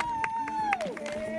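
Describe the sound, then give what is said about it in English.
Crowd noise at a gathering of Alpha Kappa Alpha Sorority members: a brief burst of voices and babble, with a high sustained vocal call that slides downward partway through. “The sounds you hear are from a gathering of members of Alpha Kappa Alpha Sorority, Incorporated. It's the world's oldest sorority, founded by Black women in 1908.”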